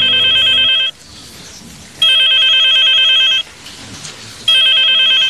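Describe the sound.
An electronic telephone rings in three loud, steady bursts separated by silent gaps, and the last burst is cut off at the end.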